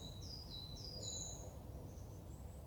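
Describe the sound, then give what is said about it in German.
Birds chirping in stillness: several thin, high chirps and short whistles repeat over a steady low background hiss, with no voices. “Die Stille, das Vogelgezwitscher”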